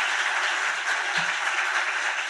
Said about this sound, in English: Can you give her a big round of applause for me?